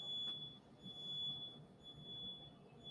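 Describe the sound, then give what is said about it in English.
Fire alarm going off with a steady, piercing high-pitched tone that holds without a break throughout, faint above a low rumbling background noise. “Oh, dang. That's a fire alarm. That's the fire alarm.”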